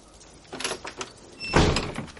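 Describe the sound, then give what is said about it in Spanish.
A door is shut in someone's face at the entrance of a house. A few soft handling noises come first, then a louder, fuller closing thud near the end, with quiet surroundings. “Le cierra la puerta.”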